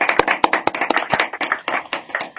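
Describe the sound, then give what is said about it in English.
Studio audience applause for school staff and students: a small group clapping, with sharp, separate hand claps in a brisk, uneven patter, loud and without talk. “So in the studio, can we have a round of applause for the fabulous staff and students of Stamford Academy, please?”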